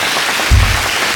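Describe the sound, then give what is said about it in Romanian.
Applause, a short, loud burst of dense clapping lasting about a second, with a low thump near the middle. “Felicitări, aplauze.”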